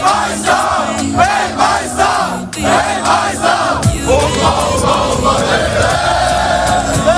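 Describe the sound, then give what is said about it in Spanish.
Football fans, mostly Ecuadorian, fill the streets of New Jersey before a Germany–Ecuador match. Loud rhythmic chanting in regular bursts gives way about halfway to a sustained, continuous roar of many voices. “Así suenan a estas horas las calles de Nueva Jersey.”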